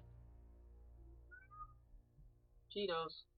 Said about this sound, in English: meowing again.